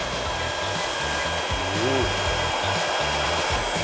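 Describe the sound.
A high-power hair dryer of about 1,800 watts blows steadily on hair during styling, a loud, constant airy whoosh with an underlying motor hum, unbroken throughout.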